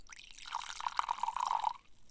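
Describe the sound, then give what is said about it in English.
Highland Park 12 whisky, a sherry-cask single malt from Orkney, being poured: a faint, brief trickle of liquid with light bubbly gurgling that lasts under two seconds, then stops. “So let's go to Highland Park next. So let's pour a little bit of that.”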